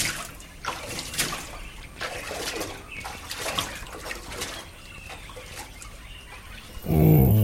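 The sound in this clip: Water splashing and sloshing as someone bathes after an early morning swim, a continuous, irregular wash of churning with small swells, ending in a sudden louder surge of splashing.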